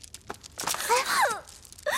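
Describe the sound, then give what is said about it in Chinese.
A woman cries in short, wavering wails and sobbing bursts, loud and alone, breaking off and then resuming at the end. “别生气了啊，别哭了，公主您别哭了好吗？啊，不哭了，不哭了啊！”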